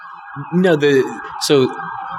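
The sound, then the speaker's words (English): Emergency vehicle sirens wail steadily in a downtown Nashville city street, a continuous tone running beneath people talking. “Sirens in the back, if you couldn't hear that.”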